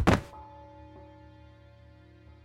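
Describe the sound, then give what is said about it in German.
A dull, heavy thud as a person slides down and lands hard on their backside on the floor. A single impact at the start is followed by a low, fading resonance. “Er rutschte nach unten und dann knallte er mit dem Hinterteil auf den Boden.”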